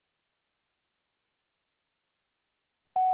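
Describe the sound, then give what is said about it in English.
Voicemail beep signalling the start of a message: a single steady, mid-high tone that comes in abruptly at the very end after near silence. “To leave a message, wait for the tone.”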